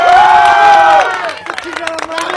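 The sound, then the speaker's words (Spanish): University crowd applauding a guest: a voice speaks first, then scattered clapping and cheering break out, lighter and more uneven than the talk before it. “Oigan, estoy con Yulisa, aplausos para Yulisa, muchachos.”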